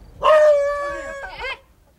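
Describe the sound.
A dog howls on a windy day near newly built row houses at the northern tip of Mumbai. It gives one drawn-out, wavering cry lasting over a second, which ends in a short, rougher yelp.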